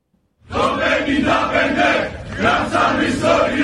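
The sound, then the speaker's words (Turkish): A fanatical group in southern Cyprus chants anti-Turkey slogans, voices bursting in loud and together after a brief silence, then holding a sustained, pulsing roar of shouting. “Grup KKTC'nin kuruluş yıldönümü öncesinde Türkiye aleyhinde sloganlar attı.”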